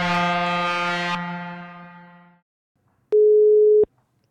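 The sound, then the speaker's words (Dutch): A dense chiming chord rings out and slowly fades, then after a short silence a single steady telephone tone sounds for under a second as a call is placed. “Laten wij gaan bellen met Henk.”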